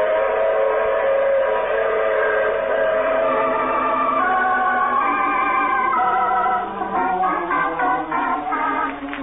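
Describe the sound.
A locomotive whistle sounds over a running train: a loud, sustained chord of tones that shifts pitch a few times, followed by a steady rumbling clatter of the train toward the end.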